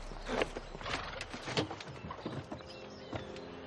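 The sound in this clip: Hooves clop in an uneven, continuous patter as horses pull a carriage attended by a footman, with many soft knocking steps over a rustling, rumbling background and no talking.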